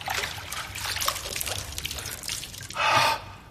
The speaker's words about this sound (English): He dips it again and holds it on the back of his neck.